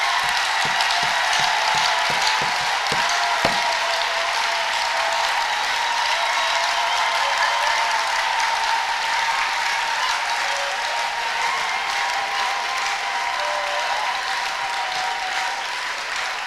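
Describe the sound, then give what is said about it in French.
Sustained applause from a church audience, steady dense clapping that fills the whole clip, with a few sharper individual claps standing out near the start and no speech over it. “Let's clap for the Lord. Acclamons le Seigneur.”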